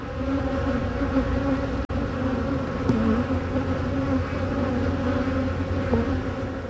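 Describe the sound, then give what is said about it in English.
Honeybees at a university apiary buzz as a dense, continuous drone, a low hum layered with a steady, slightly fluctuating whine, with no voices. “They were at the apiary at Memorial University in St. John's.”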